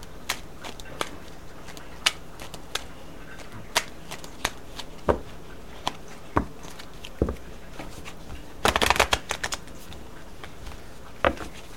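Tarot cards shuffled for a December 2021 Pisces reading: many light, crisp flicks spaced at fairly even intervals, then a dense rapid riffle of cards partway through before the sparse flicks resume, all fairly quiet.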